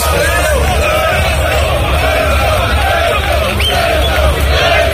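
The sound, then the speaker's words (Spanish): A crowd shouts and cheers in support of the prime minister while waiting in intermittent rain, a dense, continuous roar of many voices yelling over one another without pause. “La espera se hacía con una lluvia intermitente y con gritos a favor del presidente del gobierno, Pedro Sánchez.”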